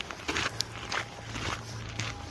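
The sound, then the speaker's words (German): Soft footsteps of someone walking near stone masonry at a shrine, a few light and fairly evenly spaced steps, faint and alone over a low steady background. “Sonst hört man jetzt nur meine Schritte.”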